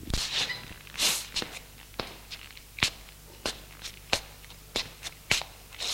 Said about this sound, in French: Elle se lève et marche en parlant.